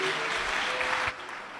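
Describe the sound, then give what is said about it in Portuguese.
Dense applause at a church worship gathering: steady, continuous clapping throughout that eases slightly toward the end. “As palmas são fortes para Cristo.”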